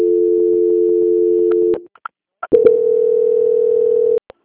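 Telephone tone during a call transfer to a bank's quality-control line: two long, steady, unbroken tones at one pitch, separated by a brief gap with a few clicks.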